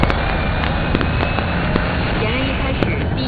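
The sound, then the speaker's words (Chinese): Armoured assault vehicles fire live rounds during army brigade training. Several sharp bangs punch through a loud, continuous rumbling roar. “接下来我们将关注陆军第83集团军某旅近日开展装甲突击车实弹射击训练”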